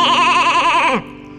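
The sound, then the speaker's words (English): A woolly white sheep on a farm bleats once, a loud, quavering cry about a second long that drops in pitch at the end before giving way to a faint background. “Down on Grandpa's farm there is a woolly white sheep. The sheep makes a sound like this.”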